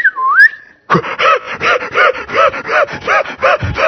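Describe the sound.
A person whistles in imitation of a whistle call: a short tone that dips, then climbs back up. It is followed by many rhythmic, rasping, sawing-like strokes with a steady back-and-forth beat.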